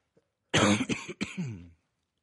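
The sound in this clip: A man clears his throat and coughs: one short, rough, throaty burst with a brief break in the middle, alone and fairly loud.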